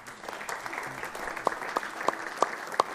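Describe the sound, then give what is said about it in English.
Audience applause during a church service: a continuous wash of clapping with several sharper, louder claps standing out. “Let's give these guys a hand.”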